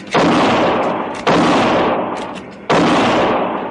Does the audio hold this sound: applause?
no